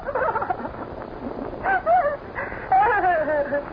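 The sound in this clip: Dog whimpering and yipping, with a few short, high, wavering whines under people talking.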